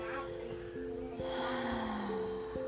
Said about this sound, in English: let's take one more breath together